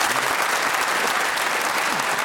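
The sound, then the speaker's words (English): Audience clapping at a panel game after a correct challenge: dense, steady applause from many hands at an even, moderately loud level throughout, with no distinct voices. “That's very charming of you, audience. We needn't clap every correct challenge. that had a whiff of Wimbledon about it, that clap.”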